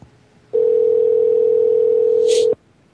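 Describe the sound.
Telephone dial tone on placing a call: one steady, pure tone sounds for about two seconds and then cuts off abruptly, with a brief higher chirp just before it stops.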